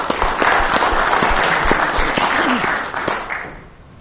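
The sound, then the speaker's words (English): Audience applause welcomes a speaker to an evening history talk, a dense, steady burst of clapping that stays strong for several seconds and then fades away toward the end. “please put your hands together and welcome.”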